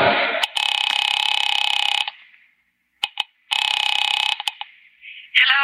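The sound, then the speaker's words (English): A telephone ringing on the line after a number is dialed: two long, steady electronic ring tones separated by a quiet pause, loud and with no talk. “Picking it up quietly, I dialed my daughter's number, Alec Bartlett's wife”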